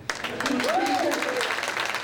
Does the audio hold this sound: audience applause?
yes